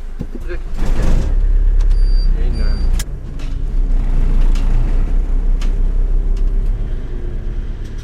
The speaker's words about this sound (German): Das alte Audi kämpft sich die Strasse drauf. Im hinteren Teil wackelt es und ruckelt es in den Regal.